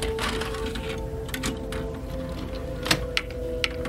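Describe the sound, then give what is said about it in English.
Mechanical clicks and clunks as one tape is ejected from a player and a second tape is loaded: a few short, sharp knocks near the end over a steady electrical hum. “I eject the first tape, load up the second.”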